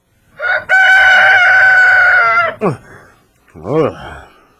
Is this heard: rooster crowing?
yes